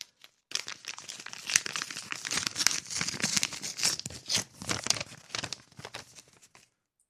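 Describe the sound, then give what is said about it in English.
A paper envelope is opened slowly, with steady crinkling, rustling and tearing of paper going on for about six seconds on its own. “this is a mystery envelope here. Let's open this one slow.”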